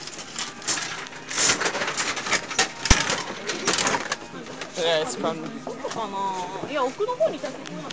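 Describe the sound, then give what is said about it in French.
Mechanical clicking and rattling from gachapon capsule toy machines as they are turned in a crowded shop, with coin sounds and ratcheting cranks under constant chatter of many voices. “les bruits que vous entendez c'est des gens qui font tourner les gachapon. Bruit de pièces puis ensuite de trucs qui tournent, c'est le bruit typique.”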